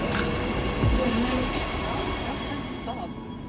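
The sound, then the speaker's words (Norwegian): A train pulls into a station, a steady low rumble and broad hiss of the cars rolling in that hold at an even level and ease slightly toward the end. “Unnskyld, men vet du om den her går til Skumma kultur? Neste stasjon er Skumma kultur.”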